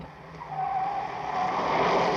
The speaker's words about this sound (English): It's a Spectrum pursuit vehicle, and it's closing.